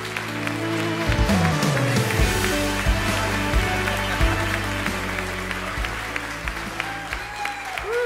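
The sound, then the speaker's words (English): A church audience stands and applauds to welcome a guest speaker, a thick wash of clapping carried over steady sustained musical tones. “Would you stand up on your feet with me right now, and let's put our hands together and welcome James Craft.”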